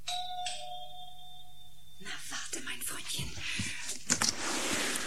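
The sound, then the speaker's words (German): A doorbell sound effect from a 1990 German radio play rings with two bright tones, then gives way to breathy, hushed whispering and rustling. “Sein Zimmerfenster war geschlossen. Er musste also klingeln.”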